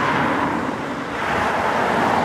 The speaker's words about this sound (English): It's surrounded by fast food joints and car dealers, and the traffic along Route 5 is steady, day and night.